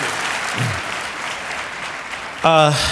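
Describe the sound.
An audience claps to welcome a guest, a steady, even wash of applause that carries on for a few seconds before a voice cuts in near the end.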